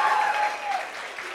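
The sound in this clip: Audience applause at a quiz show after a correct answer: a moderate wash of clapping with a faint steady tone beneath it, easing slightly in loudness toward the end.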